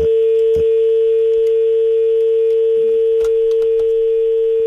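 A telephone dial tone sounding after a call is cut off: one steady, unbroken mid-pitched tone that holds at a constant level throughout, with a few faint clicks scattered over it.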